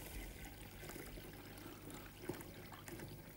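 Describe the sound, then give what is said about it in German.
Liquid brew mixture is poured carefully through a funnel into a bottle before any yeast is added, making a faint, continuous trickling and gurgling that runs quietly and alone. “Und wir können den Ansatz jetzt in die Flasche geben und am besten natürlich mit einem Trichter, damit nichts überläuft. Schön vorsichtig.”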